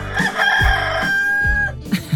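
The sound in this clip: A rooster crows once, a loud, drawn-out call holding a bright, steady pitch for over a second, followed by a couple of short calls at the end.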